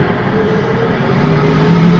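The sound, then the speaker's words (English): A race car accelerates on a road-racing circuit during a club race. Its loud, steady engine drone fills the whole stretch, and the pitch edges slightly upward toward the end. “So he is trying to get back under power and continue on racing”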